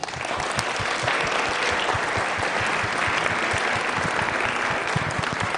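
A church audience applauds to welcome a pastor at Northeast Community Church. The clapping is loud, dense and unbroken, a steady wash of many hands that holds evenly from start to finish.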